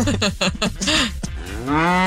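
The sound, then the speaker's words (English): A cow's deep, drawn-out moo played as a sound effect, a single long lowing call that rises in strength and holds to the end. “No, play the cow.”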